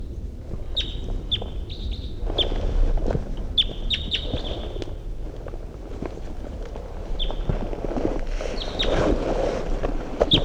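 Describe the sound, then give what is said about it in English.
Wild bird song phrases from a bird in flight: many short, high chirps in a few bursts over a steady low rumble and wind noise. “Wild bird's coming in. Wild bird. In flight. Wild bird song phrase.”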